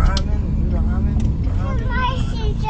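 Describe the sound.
Steady low engine and road rumble fills a car interior on a long drive, droning without a break while people talk over it.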